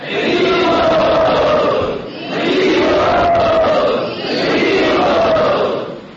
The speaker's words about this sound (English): Let us all welcome him by saying Hari Bol.